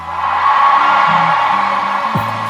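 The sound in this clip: A crowd cheering at the 52nd annual American Music Awards: a loud, sustained roar of whoops and shouts with deep tones beneath, steady and dense throughout.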